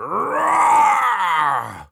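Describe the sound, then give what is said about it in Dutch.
A voice imitates a dinosaur roar with one long, loud, groaning growl that lasts nearly two seconds, holding steady before tapering off at the end. “toen ik heel hard probeerde te brullen als een dinosaurus.”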